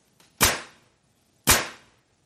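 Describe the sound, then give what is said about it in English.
A nail gun fires twice, each shot a sharp, loud crack with a brief decaying tail, preceded by a faint click. “What is a nail gun? A nail gun, yes, much bigger than a stapler.”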